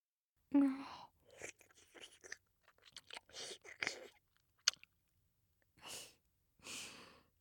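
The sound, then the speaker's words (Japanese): Deep, wet kissing sounds with moist smacking mouth noises and breaths, coming in several uneven bursts separated by short pauses, with no talking. “互いの唾液を交換しちゃうくらいの濃厚なキス。”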